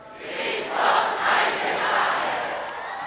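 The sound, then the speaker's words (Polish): A crowd gives Pope Benedict XVI an ovation on his arrival at Jasna Góra. Many voices cheer in a loud, swelling roar that builds early and stays strong throughout. “Jasna Góra zgotowała Benedyktowi XVI owacyjne powitanie, takie, którego z pewnością nie oczekiwał.”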